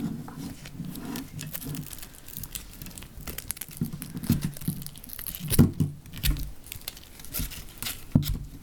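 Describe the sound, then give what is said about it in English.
Sandpaper scrubbing the coating off the end of a coated copper wire makes uneven, scratchy rasping bursts that come in irregular strokes of varying loudness, with a few sharper scrapes. “But the wire is actually coated. So what we have to do, we've got sandpaper here. We have to sand the coating off the wire at each end.”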